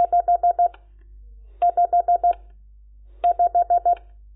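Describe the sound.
Morse code for the digit 5, sent as five quick, evenly spaced dots of a steady mid-pitched tone, repeated three times with short silent gaps between groups.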